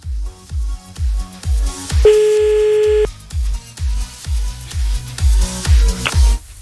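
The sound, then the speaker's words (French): A single telephone tone rings for about a second while a number in Charleroi is called back for a second time, heard over a steady, regularly thumping low beat. “On rappelle à Charleroi, deuxième appel.”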